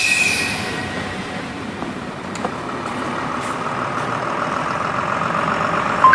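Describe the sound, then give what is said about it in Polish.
A train at Włocławek railway station gives a steady rolling rumble with high wheel squeal, holding an even loudness for about six seconds with no voices. “Jaka tu stacja jest? Stacja Włocławek.”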